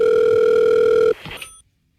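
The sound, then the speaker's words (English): A steady telephone dial tone hums for about a second, then cuts off abruptly as dialing of a number begins, followed by a few faint clicks and then silence. “Hang on, let me dial.”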